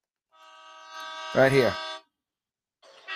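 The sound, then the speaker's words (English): A trucker's powerful air horn blares in one long, steady, rich-toned blast lasting over a second, with a man's voice briefly speaking over its end, then a short burst of another sound after a pause. “And here's something I play. It's the trucker's horn. It's very powerful.”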